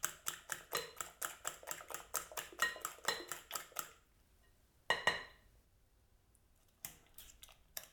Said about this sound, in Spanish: mezclo ya las patatas con el huevo. Lo podéis hacer con un tenedor. Yo lo estoy haciendo con el mismo tenedor de batir los huevos